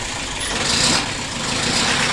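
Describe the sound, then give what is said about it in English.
Bedford truck engine at a market early one morning in 1962, a continuous rough rumble with a hissing top that holds steady throughout, with no voices. “That's the sound of a Bedford truck at the Smithfield Market one early morning in 1962.”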